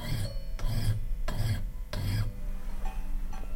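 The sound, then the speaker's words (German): Rasping of a file on the metal comb from a disc-playing music box in a workshop, a few steady back-and-forth strokes with short pauses, then quieter. “feilt an einem Kamm, der nicht aus einer Musikdose stammt, sondern aus einer Plattenspieldose.”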